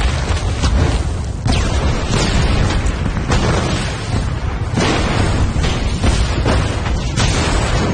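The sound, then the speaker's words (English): Explosions tearing through a film scene: a dense, loud, continuous roar of blasts and rumbling debris, with several sharp new bursts breaking through the din and no voices. “Bao and Shen get up and run as explosions chase them. In the sewer, the ceiling cracks above Ray. The explosions send Bao crashing into a tree trunk.”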